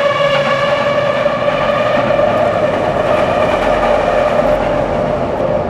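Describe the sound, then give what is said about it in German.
A U3 underground train passing overhead makes a loud, steady rumble with a sustained tonal whine layered above it, holding an even level for the whole stretch without fading. “Das war jetzt der Sound von der U3 über uns.”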